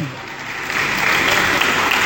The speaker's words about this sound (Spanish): Igual se merece un aplauso, ¿no?